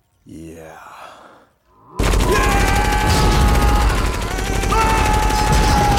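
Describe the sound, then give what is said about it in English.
Rapid gunfire in a sci-fi action film scene, a dense, loud, sustained barrage of shots, preceded by a brief sighing vocal sound. “and they're firing away.”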